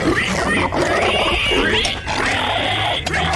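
A big wild boar grunting and snorting, making loud, rough, continuous noisy sounds with a few brief dips and no clear pauses.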